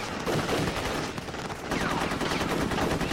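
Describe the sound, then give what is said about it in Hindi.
Heavy gunfire pours in from all sides in a combat scene, a dense, unbroken clatter of rapid shots that stays loud throughout and swells again in the second half, with no voices. “जैसे ही उठते हर तरफ से गोलियाँ बरसती हैं।”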